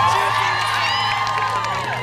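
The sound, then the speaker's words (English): An audience cheers loudly, a dense, sustained mix of shouting voices and high whoops from many people, holding steady before easing slightly at the end. “so cheer not for us, but for yourselves, go on.”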